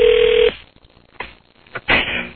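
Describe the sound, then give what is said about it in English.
Cell phone being dialed: a loud steady tone cuts off abruptly, followed after quiet by a few short tone bursts and a longer burst near the end. “Now I'm trying your cell phone now.”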